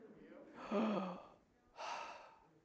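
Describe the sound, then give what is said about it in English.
A deep, audible breath during a sermon: two long breathy swells, the first carrying a slight voiced edge, separated by a brief lull, with quiet background between them. “That was a gracious breath.”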